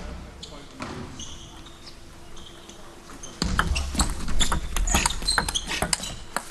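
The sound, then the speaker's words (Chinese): Ticks from a table tennis ball bouncing as a player prepares to serve in a professional match: a few light, sharp taps under steady commentary and background noise. “现在分差还有两分，换过来梁靖昆发球”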